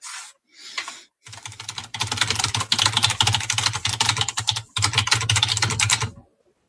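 Loud typing on a computer keyboard: a few short bursts of clicks, then long, dense runs of rapid, clattering keystrokes with one brief pause, over a low steady hum.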